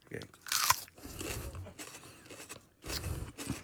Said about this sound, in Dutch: Oké, nou daar gaan we. Wat ze dan zeggen bij de wedstrijden? 1, 2, 3, eat that chili.